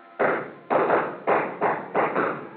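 Six gunshots fired into a ceiling as a radio drama effect, dull, muffled bangs in a quick, uneven succession, each with a short decaying tail.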